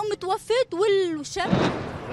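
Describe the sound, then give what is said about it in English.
An explosion goes off in a Syrian border town during an interview amid a Turkish offensive; a voice speaks, then a sudden loud blast breaks in and spreads into a rough, rumbling wash of noise. “A nearby explosion interrupted this reporter's interview with a local resident.”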